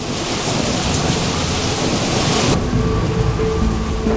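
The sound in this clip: Steady heavy rain falls on rain-soaked shrubs in a park during a thunderstorm, a dense continuous hiss with deep rumbling thunder underneath; the brighter part of the hiss softens partway through.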